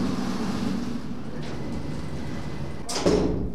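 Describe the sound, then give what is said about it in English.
A freight elevator door slides and closes with a brief heavy clunk near the end, following a steady low mechanical hum. “Stepping aboard the freight elevator.”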